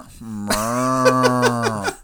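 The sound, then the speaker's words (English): A person's voice imitates a cow's low, sustained moo that shifts into a quavering, goat-like bleat, with rhythmic pulsing wobbles through the second half before it trails off. “I almost bleated all over the mic.”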